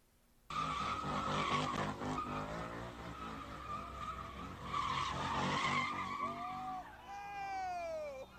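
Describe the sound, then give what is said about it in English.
Tires skid and squeal as cars do donuts in an intersection: a loud, continuous screech with engine roar, ending in sharp, wavering squeals. “At one point, one of the vehicles doing donuts appears to hit an onlooker.”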